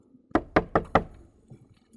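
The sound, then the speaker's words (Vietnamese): Four sharp, evenly spaced knocks rap on a door at midnight in a village house, loud and dry in a quick steady rhythm, followed by faint low rustling. “ông Báu nghe có tiếng gõ cửa”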